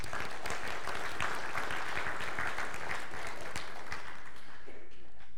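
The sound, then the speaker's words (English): A church audience applauding to welcome visitors, steady dense clapping sustained for about five seconds before thinning out at the end. “Can we give our visitors a hand?”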